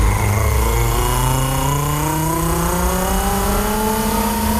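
Car engine revving hard, a loud, continuous roar whose pitch climbs steadily throughout as the vehicle accelerates, with no voices over it.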